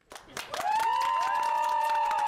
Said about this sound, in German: Großer Jubel, als Jens Söring am Mittag in Frankfurt vor die Mikrofone tritt.